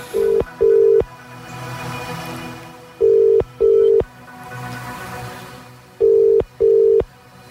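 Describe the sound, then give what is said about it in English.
A telephone number being punch-dialed for a prize giveaway call: six loud, steady keypad tones in three evenly spaced pairs, over a faint low background. “we are punch dialing. In the phone number.”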